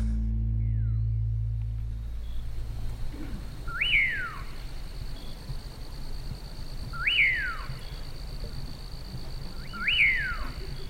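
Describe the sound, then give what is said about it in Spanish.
A nocturnal songbird known as the caballero sings at night: three clear whistled calls, evenly spaced a few seconds apart, each note sweeping sharply up and then sliding down over a steady low background. “¿Escuchás? El caballero. Este pájaro que canta solo por las noches se llama el caballero.”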